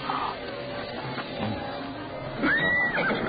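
A horse gives a single clear whinny near the end that arches up and then down in pitch, above a low, steady background murmur.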